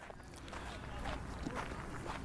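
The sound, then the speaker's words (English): Footsteps walk along the National Mall in Washington, D.C., a steady series of soft steps over constant background noise. “At the moment, I'm walking along the National Mall with the U.S.”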